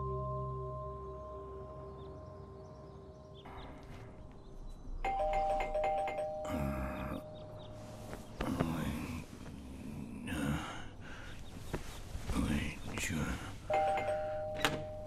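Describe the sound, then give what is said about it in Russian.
A doorbell rings at a home's front door in the morning, starting with a long sustained chime. It rings out again a couple more times while people talk in hushed, hurried voices. “В дверь звонят родители Нины”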